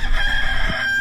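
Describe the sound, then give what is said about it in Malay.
A single loud crow from a rooster rings out, a sustained cock-a-doodle-doo that lasts about a second and stands alone without voices. “Ayam jantan berkokok.”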